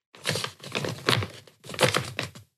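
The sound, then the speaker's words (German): Paper rustles and crinkles as an envelope is opened, in three soft bursts of crackling with short pauses between them. The sound is faint and there is no talking. “Und ich würde dich einmal bitten, hier diesen Umschlag zu öffnen, in dem sich das Ding befindet.”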